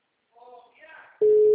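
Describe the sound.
A telephone call signal on a redialed call: after a brief stretch of voice, a single steady low-pitched tone starts abruptly and holds loud and unbroken to the end.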